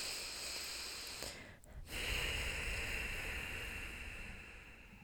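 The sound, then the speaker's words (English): Deep breathing during meditation sounds soft and airy, with a long hissing breath, a brief pause, then another long breath that swells and slowly fades. No voices are heard. “taking a few deep breaths”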